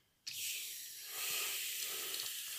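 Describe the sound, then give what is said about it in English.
Hot water runs from a tap into a bath, starting abruptly after a brief quiet moment and continuing as a steady, loud, rushing hiss with slight swells in level. “So that means I can now have the hot water running to top up the bath”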